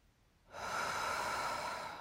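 A deep, slow breath taken during a guided breathing exercise: after half a second of quiet, a steady airy rush of air rises and holds evenly to the end.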